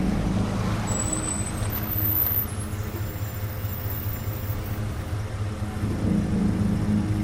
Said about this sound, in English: An SUV rounds a bend, then stops beneath the shade of a row of trees.